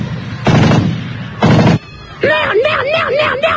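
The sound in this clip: Two short, loud bursts of gunfire ring out in a comedy sketch, each lasting a fraction of a second. A wavering, high-pitched tonal sound follows them.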